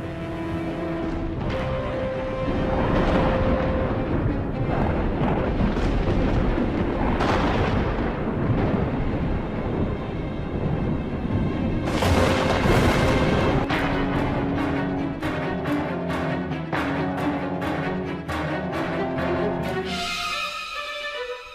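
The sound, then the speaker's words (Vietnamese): Thunder rumbles through a storm with flashing lightning over an abandoned garden. The deep roll is loud and continuous, and sharp crackling claps burst in repeatedly during the second half. “mà ở trên bầu trời sấm chớp vẫn cứ đì đà đì đùng”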